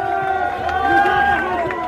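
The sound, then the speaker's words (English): A crowd of refugees camped in a Budapest train station underpass during the refugee crisis. A dense, continuous babble of many voices carries some raised tones and no distinct words. “This is the sound of Budapest's refugee crisis.”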